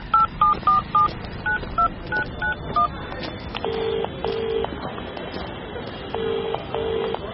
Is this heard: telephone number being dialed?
yes